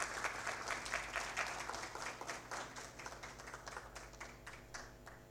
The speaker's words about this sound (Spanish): Fuerte los aplausos.